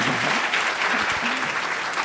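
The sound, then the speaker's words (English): Applause from an audience at a church gathering as a nervous woman is called up to share her testimony. The clapping is steady and fairly loud and lasts throughout. “How about we give her just applause and just have her, you know.”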